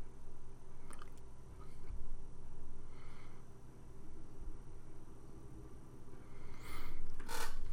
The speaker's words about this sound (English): Sorry about that fucking squeakiness. That's my chair. I need a new one.